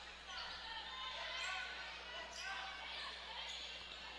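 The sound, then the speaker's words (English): A basketball is dribbled on a court during a women's game between Mountain Home and Benton, its faint, regular bounces sitting beneath a steady murmur of crowd noise. “Dribbles between the circles.”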